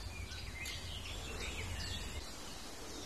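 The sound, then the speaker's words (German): Young woodpeckers call excitedly in a forest with faint, high, chirping notes that repeat in quick bursts over a steady, low background murmur. “Mit Ausnahme dieser Spechtaufregung, was aber, glaube ich, eher mit den Jungvögeln zu tun hat oder mit den Jungspechten, die trainieren,”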